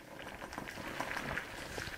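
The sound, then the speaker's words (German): Steady, dense bubbling of water boiling in a small lab beaker, with a cube-sized piece of wood bobbing on the rising gas bubbles; a continuous crackling simmer at even loudness, with no voices. “Im Labor des Thünen-Instituts für Holzforschung in Hamburg-Bergedorf wird ein gerade mal würfelgroßes Holzstück durchgekocht. Der Würfel hüpft auf den Gasbläschen in einem kleinen Becherglas.”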